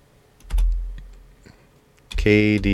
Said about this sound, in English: Let's see if we can find him in the Google search that we did. Let's type it in YouTube.